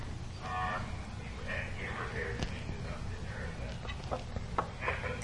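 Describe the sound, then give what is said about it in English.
A cow moos, faint and low, amid soft background noise with a few brief clicks. “That's the cow.”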